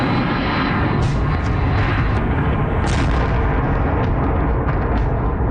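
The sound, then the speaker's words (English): Drones flying through the sky over Kyiv during an attack: a loud, continuous buzzing engine roar that fills the whole stretch without a break and stays at an even, dense level throughout. “That's the sound of drones flying through the sky over Kyiv.”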